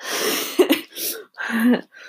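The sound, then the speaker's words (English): A person sneezing, heard as a few short, harsh, breathy bursts with voiced catches, alone and without talk. “Oh, I have to sneeze. Yeah, I really have to sneeze.”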